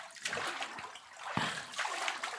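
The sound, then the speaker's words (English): Water rinsing a person's hair as their head leans back, a faint, continuous trickle broken by a few soft splashes. “Now, time to rinse. Lean your head back. Yeah, just cover your eyes.”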